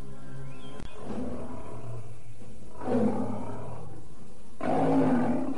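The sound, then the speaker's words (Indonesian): A large striped tiger roars in two deep, rasping bursts, the second longer and stronger, over a constant low drone that follows an early sharp click. “Sementara itu, Kayan Manggala sudah melangkah mendekati harimau belang yang besar.”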